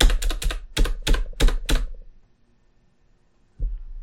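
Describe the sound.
Rapid clicking keystrokes on a laptop computer keyboard, several quick bursts of typing for about two seconds, then silence broken by one more soft tap near the end.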